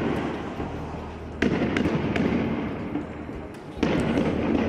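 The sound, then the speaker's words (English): Israeli police fire tear gas at Palestinian protesters in Bethlehem during a day of street protests: two sharp, loud bangs stand out, with a few fainter pops between them, over constant background noise. “The sounds here of Israeli police firing tear gas at Palestinian protesters in Bethlehem today”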